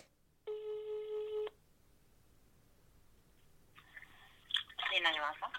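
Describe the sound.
One buzzy, harmonic ringing tone of an outgoing telephone call lasts about a second over faint hiss. After a quiet stretch, people begin talking on the line.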